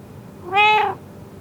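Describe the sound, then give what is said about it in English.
A single cat meow, a clear tonal cry lasting about half a second that swells and fades over faint background noise, with no voices. “It is a cat. Oh, come here, baby.”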